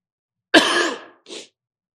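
A single harsh cough followed by a shorter, softer throat-clearing sound, both loud against otherwise silent surroundings.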